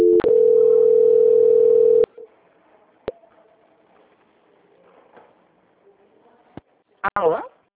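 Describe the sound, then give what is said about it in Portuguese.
A telephone transfer tone as a loan-approval call is passed to quality control: a loud, steady tone holds for about two seconds, then faint line noise with a few sharp clicks and a short warbling burst near the end. “Nesse instante eu vou passar a ligação para o controle de qualidade, só um momento, por gentileza.”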